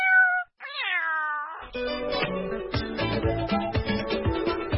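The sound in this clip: Many abandoned cats in a garden meowing together: a couple of clear, wavering meows first, then a busy, overlapping stretch of cat calls with many short, uneven bursts.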